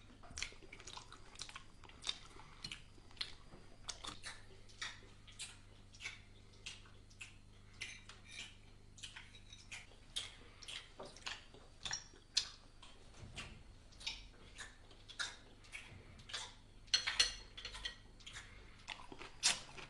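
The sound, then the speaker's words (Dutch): Loud open-mouthed chewing of food at a family dinner table: many wet, irregular smacks and clicks, quiet but steady throughout, with no talk. “En één iemand verpest dan de sfeer door lekker zijn gang te gaan door het voedsel in zijn mond lekker te laten zien. En hierbij maakt diegene dan ook nog een geweldig geluid.”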